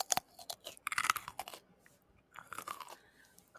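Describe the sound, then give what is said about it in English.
Crisp crunching of sliced cucumbers slathered with chili crisp, chewed in two bursts of rapid, wet bites separated by a short pause, fairly soft and heard without talk. “And then I have for snacks some sliced cucumbers. And then I slathered on some chili crisps from Momofuku. And it is so, so tasty. So maybe I'll do like a little ASMR here.”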